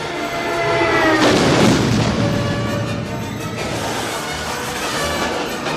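An airplane explodes against a snowy mountainside with a dense, roaring rumble that swells to a loud peak, then settles into a sustained, crackling roar that slowly eases, with no voices.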